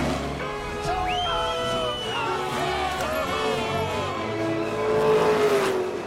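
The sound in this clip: Race car engine on a racing circuit, a loud continuous drone whose tone shifts and glides, with other overlapping sounds throughout.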